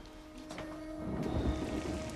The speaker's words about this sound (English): At night, rain pours.